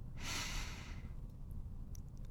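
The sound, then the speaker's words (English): A slow, soft exhalation after a deep breath during a guided relaxation exercise: one breathy whoosh lasting about a second, then quiet. “Taking a deep breath and blow it out slowly.”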